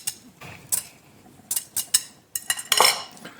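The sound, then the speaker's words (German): A utensil mixes pasta with egg and bacon in a hot pot, giving irregular metallic clinks and scrapes against the pot, with a few sharper knocks and quieter rustling between them. “Und jetzt. Vermengen. Vermengen. Und da reicht eigentlich wirklich die Restwärme der Nudeln und ein heißer Topf.”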